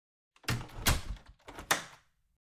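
A door slammed shut at the entrance of a home, giving a few loud, sharp thuds with rattling clatter over about a second and a half, then silence.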